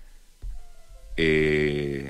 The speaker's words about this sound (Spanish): lo que pasa es que me están llamando y no tengo el WhatsApp disponible en este minuto.